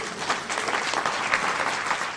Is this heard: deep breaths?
no